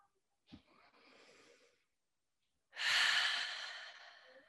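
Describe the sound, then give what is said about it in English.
Deep breathing during a group stretching session: a short intake, a pause, then one long, loud exhale that slowly tapers off. “So I'd love if we really choose to embody that together by standing up nice and tall and taking some deep breaths together.”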